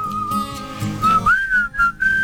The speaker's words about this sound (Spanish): Qué difícil silbar a un micrófono, ¿no?